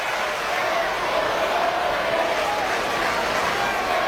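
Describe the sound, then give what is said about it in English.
Cubs fans cheer at a Kauffman Stadium baseball game, a dense, steady crowd roar that holds at an even level throughout with no clear peaks or breaks. “The Cub fans here at Kauffman Stadium on their feet, and there are a lot of them. You can hear him in the background.”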